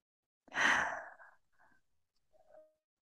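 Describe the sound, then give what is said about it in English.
A single deep, breathy inhalation or sigh taken during a guided meditation moment, strong and airy for about half a second, then tailing off into a few faint soft breath sounds. “let's just take a moment to breathe this into our body.”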